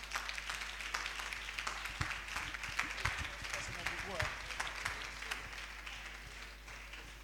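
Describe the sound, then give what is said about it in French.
Audience applause for children at a gathering: steady, fairly faint clapping from many hands continuing evenly to the end. “Voilà, voilà viens. Viens, mon petit. Acclamez les enfants.”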